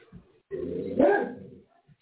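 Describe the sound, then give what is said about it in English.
A dog barks in the background, one loud, drawn-out burst with a few faint short sounds before and after it and no talking. “That's my dog in the background.”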